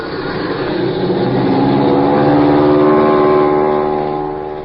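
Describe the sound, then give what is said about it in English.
A motor starts up into a steady, droning engine hum with strong low harmonics. It swells in loudness, holds evenly, then eases off slightly at the end. “Okay. Here goes the motor.”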